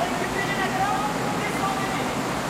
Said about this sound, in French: Ici, derrière la chute d'eau ! Derrière la chute d'eau ? Comment derrière la chute d'eau ?